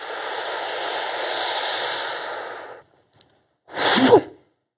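Breathing during a standing exercise in horse stance: one long, steady inhale rushes like soft hissing air, then a short pause with a few faint clicks and a shorter, louder exhale. No talk is heard.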